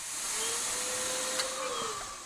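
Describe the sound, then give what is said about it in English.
A vacuum cleaner sucks up bed bugs during a pest treatment combining heat and chemicals, giving a steady, airy whooshing drone with a faint constant hum running through it and one brief click partway through. “They're going to die where they are, or they're going to be lifted in the vacuum.”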